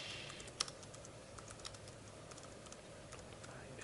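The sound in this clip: Keys on a computer keyboard click as a web address is typed. Many faint, quick, irregular taps run over a steady low hiss, and one sharper keystroke stands out near the start.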